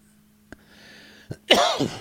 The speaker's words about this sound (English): I just coughed right in the microphone.